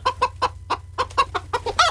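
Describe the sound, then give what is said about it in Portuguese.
A chicken clucks in a quick series of short, sharp clucks at an uneven rhythm, clear and alone over faint low background noise. “Se tiver uma galinha gorda, pode trazer, né? Se tiver uma galinha gorda. Pode trazer.”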